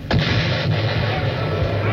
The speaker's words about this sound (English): It happened that a round shot from the enemy entered one of our gun ports.